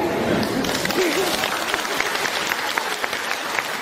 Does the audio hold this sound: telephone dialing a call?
no